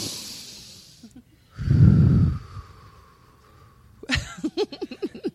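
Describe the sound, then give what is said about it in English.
People take a collective deep breath, heard as a loud breathy rush in the middle between softer airy noise, then followed by several short voiced pulses. “let's just all take a collective deep breath.”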